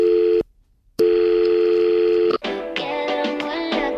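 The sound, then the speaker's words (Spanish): A telephone call being placed: a steady dial tone cuts out briefly, resumes, then gives way to a quick run of varied keypad dialing tones. “Llamamos al Berska de Portollano para avisar que hay un hombre encerrado.”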